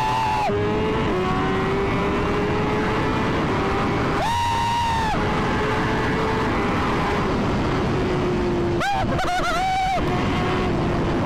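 Motorcycle engine revving while the rider pulls wheelies: a steady engine drone swells into two higher, wavering bursts of revs, with the pitch climbing and dropping back each time.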